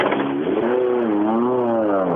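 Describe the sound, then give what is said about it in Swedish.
A Golf rally car accelerates past on a rally stage. Its loud engine note holds steady, its pitch rising, dipping and rising again before easing off. “Niklas Albinsson var där i sin eh, Golf.”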